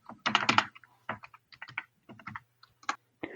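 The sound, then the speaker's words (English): A password is typed on a computer keyboard as irregular clusters of quick, light key clicks with brief pauses between bursts. The clicks are fairly quiet, and no one speaks. “Sorry, my computer just went blank. I have to type in my password.”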